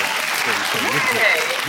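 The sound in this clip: Steady applause welcomes a guest onto a talk show stage. It stays constant throughout while a voice speaks over it.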